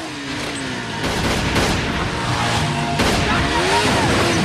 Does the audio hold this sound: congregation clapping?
no

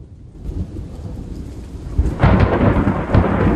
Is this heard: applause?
no

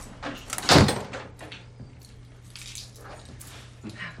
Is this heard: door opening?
yes

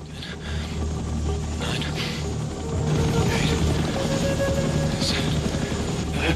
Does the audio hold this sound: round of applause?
no

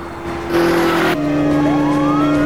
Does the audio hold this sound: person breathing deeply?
no

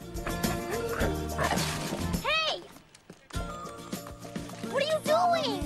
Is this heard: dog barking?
yes

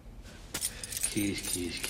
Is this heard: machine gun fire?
no

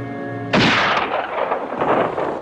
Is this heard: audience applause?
no

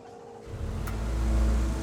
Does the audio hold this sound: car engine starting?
yes

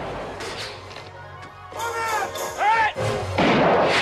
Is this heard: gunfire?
yes

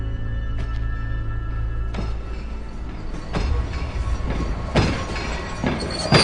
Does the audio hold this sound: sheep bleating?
no

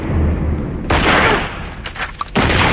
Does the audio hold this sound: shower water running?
no

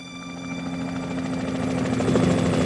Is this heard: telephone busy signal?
no

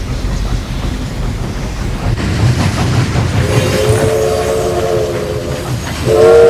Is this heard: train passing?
yes

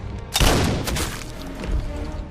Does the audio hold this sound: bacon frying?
no

